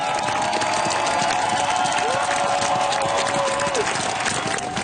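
A crowd cheers the Norwegian royal family as they step onto the palace balcony in Oslo after the old king's funeral. The roar is loud, dense and unbroken for the whole stretch.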